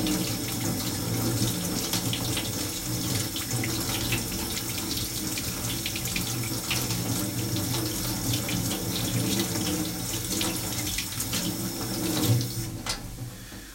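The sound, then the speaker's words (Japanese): Tap water runs into a sink as potatoes are washed, a steady continuous splashing hiss that holds throughout with no talking. “じゃがいもも同じようにまず表面をですね水で洗います”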